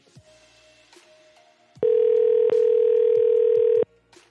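A telephone ringing on an outgoing call: one loud, steady electronic tone with a buzzy edge that lasts about two seconds, preceded by quieter, scattered sounds.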